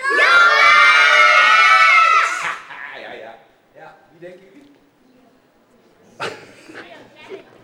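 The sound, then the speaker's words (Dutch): A group of boys shouting loudly in unison, a single sustained, full-voiced yell lasting about two seconds that then breaks off, followed by quieter scattered voices and one short later burst. “Oké, dus jongens schreeuwen 1 decibel harder dan meisjes.”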